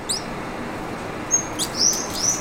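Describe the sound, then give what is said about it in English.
Thin, high-pitched chirps of an akikiki, a tiny pale gray endangered Hawaiian bird, with a few short calls rising faintly over a steady background hiss. “Oh yeah, there he is. A tiny pale gray bird hopping from branch to branch. It's the akakiki.”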